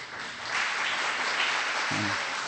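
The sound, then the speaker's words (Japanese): Applause welcoming a guest speaker at a gathering in Japan, with an audience standing to greet a visiting teacher. The clapping is dense and steady at moderate loudness, and a brief voice comes in near the end. “まず先生、最初に立っていただいて拍手を持って歓迎したいと思います。”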